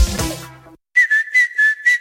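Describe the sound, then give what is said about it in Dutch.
A person whistles a short, bright tune of several quick high notes in a lively rhythm, coming in alone after a brief gap once an earlier sound fades out. “Niet alleen de vogels fluiten in april, ook Toyota-rijders.”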